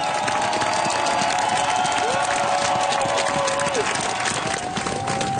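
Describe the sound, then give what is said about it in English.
A large crowd in Oslo cheers the new king, Haakon VIII, Queen Mette-Marit and the royal family as they step onto the palace balcony after the old king's funeral. The roar of cheering and applause is loud and unbroken throughout. “This is a kind of welcome the new king, Haakon VIII, Queen Mette Marit and the rest of the royal family get as they just stepped out onto the palace balcony here in Oslo at the end of the old king's funeral.”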